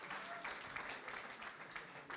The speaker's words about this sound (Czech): Můžeme zatleskat, určitě.